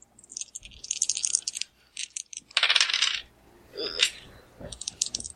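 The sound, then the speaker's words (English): Dice being re-rolled on a cluttered desk, clattering and tumbling in several bright, rattling bursts of hard clicks and skitters, with short gaps between the rolls. “I have to re-roll one of my dice because it fell off my desk because I have too much crap on it.”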